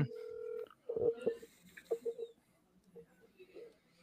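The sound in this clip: A telephone number being dialed: a steady mid-pitched tone, then a few short, quick beeps and clicks at uneven intervals, fairly faint.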